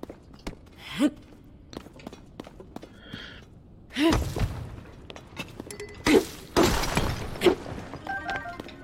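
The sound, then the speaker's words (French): A fused weapon breaks in the video game Zelda: Tears of the Kingdom, giving a sharp shattering crack among scattered thuds and game effects. Faint breathy sighs come in between. “prendre l'arme amalgamée, elle va se casser effectivement”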